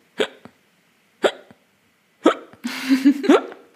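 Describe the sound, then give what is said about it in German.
A person's forceful, hard hiccups: three sharp, abrupt hiccups spaced about a second apart, each followed by a faint catch, then a short voiced sound at the end. “Ja, das hört sich bei dir auch immer wie die härtesten Schluckaufs der Welt an.”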